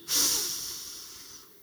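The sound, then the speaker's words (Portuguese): A single long breath out, a soft breathy hiss that starts abruptly and then fades gradually over more than a second, heard alone with no talk. “De novo, solta o ar.”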